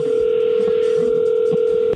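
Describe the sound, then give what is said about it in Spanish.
A telephone line tone sounds as a call is dialed: a single steady electronic pitch holds at a constant loud level throughout and drops off just before the end. “vamos a llamarle a tu esposa Gloria”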